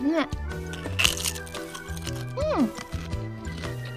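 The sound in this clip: Crunching of lightly salted potato chips with green onion being eaten, a few crisp cracks and crunches mixed in with a person talking.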